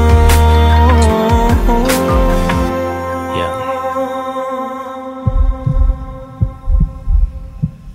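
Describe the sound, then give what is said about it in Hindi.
Heartbeat thumps within a romantic song: after sustained musical tones fade out, a series of deep, soft, low thuds pulses in a steady rhythm, heard alone. “धुन मेरी धड़कनों की सुनो।”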